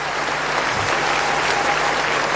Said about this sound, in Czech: Díky za takové skvělé přivítání, za takový aplaus.